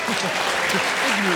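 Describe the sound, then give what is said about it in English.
Audience applause on a comedy panel game: steady, dense clapping throughout the brief stretch while a voice talks over it. “A round of applause.”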